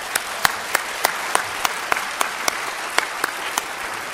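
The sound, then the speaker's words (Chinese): A church fellowship audience applauds in thanks, a dense wash of clapping with sharper claps standing out at a fairly even rhythm throughout. “弟兄姐妹，我跟各位拍手，谢谢你们。”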